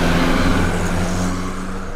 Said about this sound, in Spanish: A ver, eh, ahí viene. Es un carro Volkswagen blanco